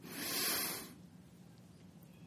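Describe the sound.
A single deep breath drawn in, a soft breathy hiss that swells and fades in about a second, followed by near silence.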